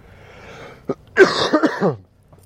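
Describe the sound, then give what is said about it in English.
A person coughs in a short run of harsh, throaty bursts: one brief hack, then a louder cluster of several coughs that trail off into near silence. “this cough”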